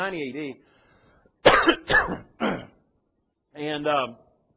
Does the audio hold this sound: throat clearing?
yes